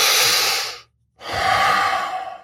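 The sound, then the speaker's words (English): Slow, deep, airy breathing like that of deep sleep: one long loud breath, a brief silent pause, then a second long breath. “And this is true with your breath. When someone's in deep sleep, you'll hear rhythms of three. You'll hear this.”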